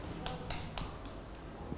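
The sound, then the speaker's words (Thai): Children clap their hands in a classroom: a short run of evenly spaced, crisp claps that is faint and fades after the first few beats. “เด็กๆปรบมือให้น้องบาซิสด้วยค่ะ”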